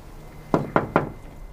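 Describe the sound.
Three knocks on a door in a quick, even rhythm, firm and fairly loud, with quiet background between and after them.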